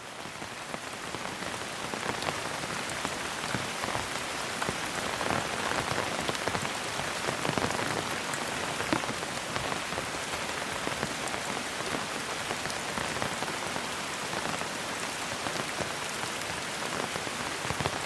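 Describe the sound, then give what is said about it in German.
Rain patters steadily on an umbrella, a dense, even hiss of countless drops that stays constant throughout with no talking. “Schritt für Schritt, begleitet vom gleichmäßigen Prasseln des Regens auf deinem Schirm.”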